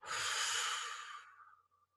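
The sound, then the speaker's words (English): Slow, deep exhale during a guided breathing exercise, a single quiet, breathy rush of air that starts strong and gradually tapers off to near silence, with no talking. “an actionable step for right now, would be to just exhale. Exhale with me now.”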